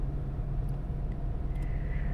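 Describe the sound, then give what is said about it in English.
Low rumble inside a car while driving, a steady and fairly quiet road drone that holds evenly throughout, with no voices. “See, we like riding in the car, don't we?”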